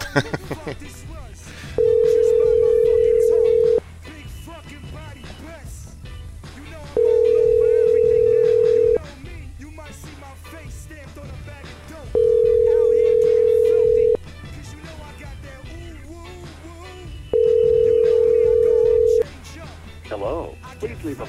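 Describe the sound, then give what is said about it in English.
Ringback tone while calling someone's phone: four long, steady, mid-pitched beeps of about two seconds each, evenly spaced with pauses between, over a low background hum. “I'm going to try and get Elena back on the phone.”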